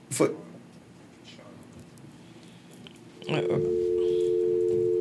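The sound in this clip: A dial tone on a phone line after a caller's call dropped. It cuts in abruptly partway through and holds one steady, unbroken pitch to the end, following a brief thump and a stretch of low, faint noise.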